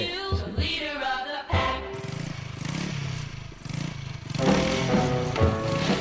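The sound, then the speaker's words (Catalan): A motorcycle engine roars and revs in surging, throaty pulses, its tone sweeping up and down as it runs steadily through the whole stretch. “I a part se sent una motocicleta, sí, un so real d'una motocicleta.”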